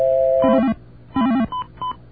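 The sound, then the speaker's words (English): Telephone keypad tones dialing an access code: a steady tone at the start, then a few short, loud electronic dual-tone beeps in quick succession, separated by brief gaps. “Now, what I'm going to do is dial up a special access code.”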